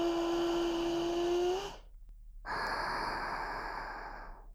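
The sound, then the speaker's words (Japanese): A deep breath drawn in, heard as a long, airy rush lasting over a second, then a brief silence and a second long breathy sound that slowly fades, with no voices. “大きく 息を吸って、”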